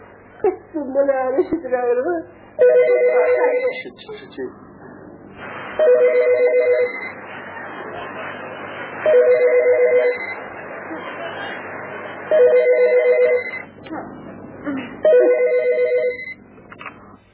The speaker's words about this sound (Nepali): कसको फोन रहेछ खै